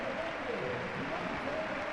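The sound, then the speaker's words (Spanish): A football stadium crowd gives a warm ovation as a goal-scoring player is substituted during a top-flight league match. The dense clapping and cheering holds at a steady level throughout. “Merecida la ovación, es verdad.”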